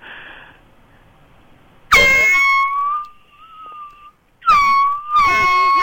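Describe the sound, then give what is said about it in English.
An air horn blares in two loud, sustained blasts, the first long and wavering slightly in pitch, the second starting after a short gap and staying steady. “I hate that air horn so much.”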